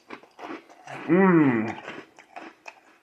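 A person chewing a bite of cereal, with irregular crunchy bites and a short, wavering voiced hum in the middle.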